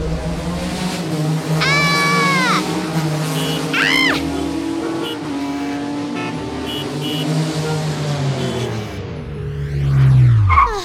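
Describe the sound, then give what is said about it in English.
A taxi cab driven wildly, its engine roaring and revving loudly with a couple of sharp, high squeals early on, then a long falling-pitch whine as the ride swells and winds down at the end. “Oh no, here's Silas Bumbernickel in his cab. He's a maniac. I'm late to court, but drive slow.”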